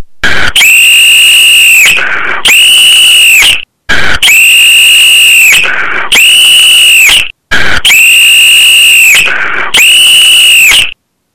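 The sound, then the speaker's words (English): A police whistle gives shrill, very loud blasts: six long, steady, high-pitched blows grouped in three pairs, separated by brief silences, with no talk. “Turn down your volume because it's going to get very loud. Yes. The police whistle.”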